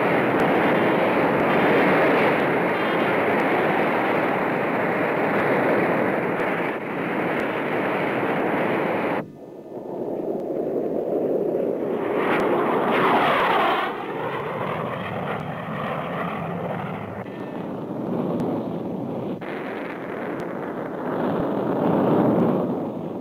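Art Arfons' jet-powered land speed record car fires up for a run, giving a loud, steady jet roar that briefly drops away, returns with whining tones, then swells back to a full roar.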